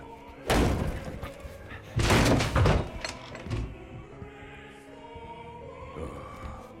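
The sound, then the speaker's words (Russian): A door being opened in a film scene: two loud, heavy thudding bangs, then quieter knocks and rattles over a steady low background. “Профессор пошел открывать двери”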